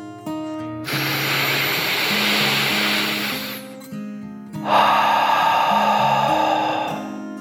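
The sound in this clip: A deep calming breath: a long airy inhale, a short pause, then a long slow exhale, over soft, gentle music.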